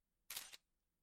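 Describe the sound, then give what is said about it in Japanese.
Camera shutter firing once as a photo is taken: a single short, crisp mechanical click, fairly quiet and alone in near silence. “写真撮っちゃおう。”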